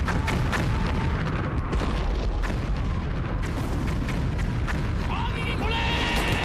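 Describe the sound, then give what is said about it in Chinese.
Artillery cannon fire from a radio drama, several field guns shelling a village at night. A dense, loud, continuous barrage of rumbling booms and blasts runs unbroken throughout with no pauses. “不好，鬼子有大炮了”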